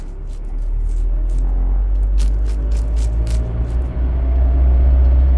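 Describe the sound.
A vehicle starts to drive away with a low, continuous engine rumble that swells slightly at the start. A few short, higher rattling clicks sit over the drone, and no voices are heard.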